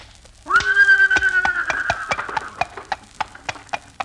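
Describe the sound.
A horse named Leona gives a long, high whinny, then hooves clip-clop in a steady rhythm as she sets off pulling a buggy with a market's name painted on its side; many hoof beats continue after the neigh fades.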